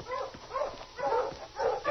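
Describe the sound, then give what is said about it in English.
Tired sled dogs whimper and yip in a few soft, muffled, tonal bursts, with a thin, narrow-band quality throughout. “Mush, you lovers, if you want to eat. Those dogs are too tired to want to eat.”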